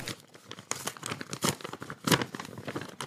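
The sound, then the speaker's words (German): Paper crinkles and tears as an envelope is ripped open at a mock award announcement, with many quick rustling and tearing bursts of uneven loudness that continue without a pause. “Wieder wird ein Umschlag geöffnet wieder steigt die Spannung ins Unermessliche.”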